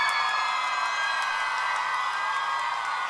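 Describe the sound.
Audience applause and cheering for a singer at a live concert: an even, sustained roar of clapping, whoops and shouting voices. It holds at a constant, fairly strong level throughout.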